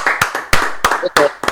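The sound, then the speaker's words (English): Hand clapping with voices: a handful of sharp, separate claps at an uneven rhythm, mixed with speech rather than a full crowd roar. “Oh, that was awesome. Applause and everything.”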